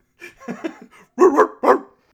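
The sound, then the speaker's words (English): A dog barking outside: a run of several softer barks, then two loud, sharp barks after a short pause. “There's a dog barking outside.”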